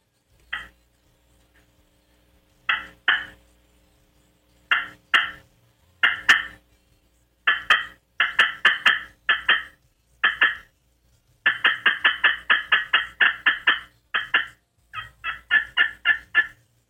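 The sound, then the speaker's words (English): A slate turkey call imitates hen turkey cutting: sharp, high clucks that start as scattered single notes and pairs, then break into fast, loud runs of many clucks in a row, alone without talk. “She will start cutting. Cutting's excited call sounds similar to cackling, but she's showing aggression, excitement.”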